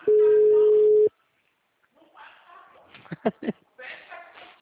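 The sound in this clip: A phone call rings unanswered: a single steady ringback tone lasts about a second, then stops abruptly. A short silence follows before someone begins speaking.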